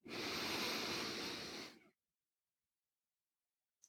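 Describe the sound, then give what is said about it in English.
A deep breath in during a guided breathing exercise, one long airy rush lasting about two seconds that fades out into silence, followed by a faint click at the very end. “Once again, let's do it together. I'm going to breathe in.”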